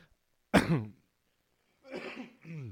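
A person clears their throat: one sharp, harsh burst, then a brief pause, then a longer, rougher rasp in two parts.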